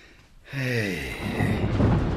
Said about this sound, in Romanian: Vine o furtună groaznică pe mare.